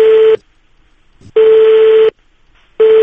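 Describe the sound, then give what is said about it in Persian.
A loud telephone tone repeats on one steady pitch as a call is dialed. It sounds in three bursts separated by near-silent gaps, with no voices. “بریم سریعتر زنگ بزن”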